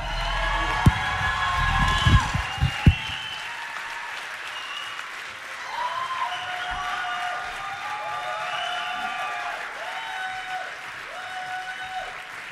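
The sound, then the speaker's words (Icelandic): Audience applause for the band Geðbrigði after their performance at a judged music competition: a steady, dense wash of clapping with a few sharp, louder claps near the start and high cheering voices and whoops rising and falling above it throughout. “Geðbrigði, gefum þeim gott klapp.”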